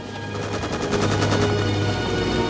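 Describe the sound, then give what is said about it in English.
Machine gun fire from a helicopter raking a jungle with bullets, a steady, dense, rapid rattle of shots lasting the whole moment. “The chopper peppers the jungle with bullets”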